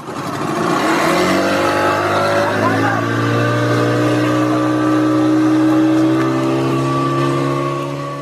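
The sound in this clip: A motor boat engine drones during a boat ride on a reservoir, a loud, steady hum with layered tones that runs unbroken through the whole clip.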